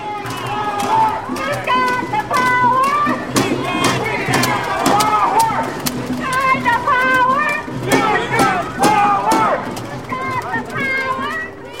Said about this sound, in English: And that was the sound of over 500 hotel workers rallying on Wednesday in front of the Hyatt Regency Hotel in downtown Vancouver.